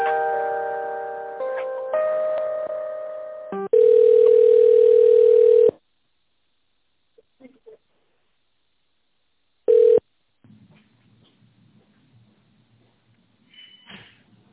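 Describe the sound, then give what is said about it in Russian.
Telephone line tones while a call is transferred to a specialist: layered chime-like tones that slowly fade, then a loud, steady tone for about two seconds, a pause, one short beep and faint line noise. “Минутку переключусь на специалиста Екатерина.”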